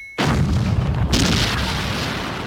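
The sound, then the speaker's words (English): Explosion sound effect from a movie shootout in which cars, including a Ford Pinto, blow up after a bumper is brushed: a sudden loud boom swells into a sustained roaring rumble, with a brighter second burst partway through. “they barely brush the bumper of a Pinto and suddenly they all explode.”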